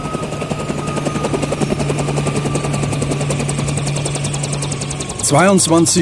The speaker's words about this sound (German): Erst um kurz vor 10:30 starten zwei Hubschrauber des Bundesgrenzschutzes zum Militärflughafen nach Fürstenfeldbruck, westlich von München.